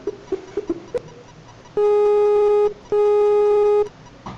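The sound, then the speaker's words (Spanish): A Skype call ringing tone plays as two steady, buzzy tones of about a second each, separated by a brief gap, after a few soft clicks. “En esta actividad haremos una llamada a través de Skype”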